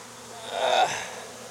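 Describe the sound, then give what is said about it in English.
Honey bees buzz around an open hive in a steady, dense drone that swells briefly in the middle and then settles back. No voices are heard. “I don't think I'm going to see the queen. There's just so many bees, unless she just pops out right in the middle.”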